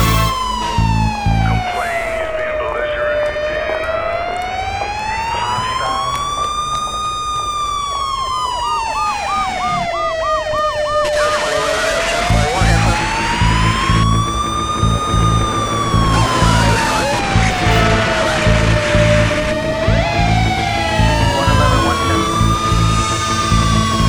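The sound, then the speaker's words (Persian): An ambulance siren wails loudly over a steady musical beat, its pitch sweeping slowly up and down, with a faster warbling yelp partway through before the slow wail returns. “صدای آمبولانس بود”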